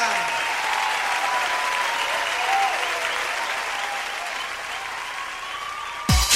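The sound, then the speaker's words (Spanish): Steady applause from a crowd, a dense even patter of clapping that holds for several seconds before ending abruptly with a short thump. “Un fuerte aplauso a la Chiringuita.”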